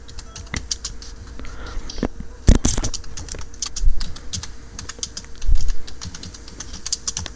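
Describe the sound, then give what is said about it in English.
Typing on a computer keyboard: many quick, irregular key clicks in an uneven rhythm, with a few louder thumps scattered through and no voices. “Type, type, type. Click, click, click, click, click, click, click, click, click, click.”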